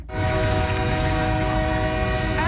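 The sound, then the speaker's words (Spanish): A train horn sounds on a train heading to Calexico, one loud, steady, sustained blast of layered pitches that runs through the whole clip over a low rumble. “El tren hacia Calexico.”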